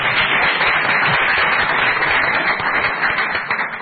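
Audience applause, a dense and continuous wash of many hands clapping, easing slightly toward the end.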